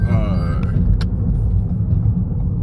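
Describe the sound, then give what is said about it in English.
Low, steady engine and road rumble from a new car runs through the whole stretch, with a voice briefly audible near the start. “oh, I got a new car. Does it sound different? I hope it sounds better.”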